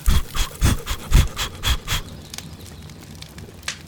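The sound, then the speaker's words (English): Forceful, breathy puffs of blowing at a flaming marshmallow on a roasting stick at a campsite. A quick run of loud bursts comes first, then they trail off into quieter breathing. “Ah! Your marshmallow's on fire! Shake it, shake it, shake it! Blow, blow, blow!”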